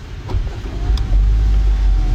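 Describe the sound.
A car engine accelerating up a steep parking garage ramp, a low, steady rumble that grows slightly stronger partway through, with a faint whine running above it.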